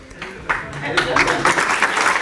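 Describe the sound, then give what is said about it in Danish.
Applause breaks out after a silent pause in a hall at a school gala and quickly thickens into dense, steady clapping of moderate loudness, with a voice talking over it. “Og så bliver der klappet.”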